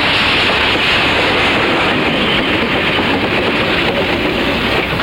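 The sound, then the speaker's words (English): A train glides past on the rails, making a loud, steady roar of rumble and rail hiss that holds evenly for the whole stretch without a clear break. “The Reno men watch in anticipation as the train glides past them.”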